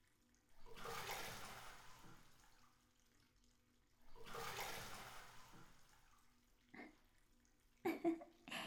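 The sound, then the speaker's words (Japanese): Hot bath water poured over someone's back in two separate rushing splashes, each lasting about two seconds with a quiet pause between, followed by a few short, softer water sounds. “それじゃあ、背中にお湯をかけるよ。”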